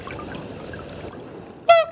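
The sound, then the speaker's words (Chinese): A swan that had once been rescued and treated gives a single short, loud honking call near the end, after a steady trickling, watery background. “小雪就是李健曾经救治的天鹅。”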